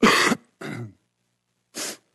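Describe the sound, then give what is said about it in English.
Coughs into a microphone during a church sermon: three short bursts, the first loudest and harsh, the second lower and shorter, and the third brief and airy after a pause. “It's hard to get away from a cough when you have a microphone on your face, right?”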